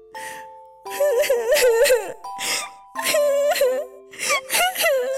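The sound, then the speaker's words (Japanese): A person cries in wailing, sobbing bursts, a high wavering voice rising and breaking across several loud outbursts separated by short gasping gaps, with steady sustained tones ringing underneath. “あ、いやいや、今度は泣くのですか？”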